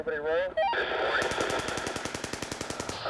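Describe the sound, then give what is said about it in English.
A US helicopter gunship in Iraq opens fire on a group of men, its machine gun firing a long, steady stream of many evenly spaced shots right after a brief voice. “When they were given the go-ahead, they laughed as they gunned the men down.”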